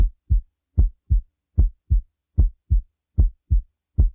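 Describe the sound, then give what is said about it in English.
Normal human heartbeat with paired S1 and S2 lub-dub sounds: a steady, even rhythm of low, soft thumps in clear pairs, alone against silence. “you normally hear a lub-dub called an S1, S2. It sounds a little like this.”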